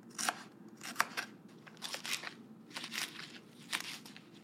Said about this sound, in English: I'm just cutting some of the leaves.